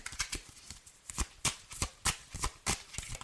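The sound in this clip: Tarot cards being shuffled during a reading make quiet, crisp riffling and slapping bursts at an irregular pace.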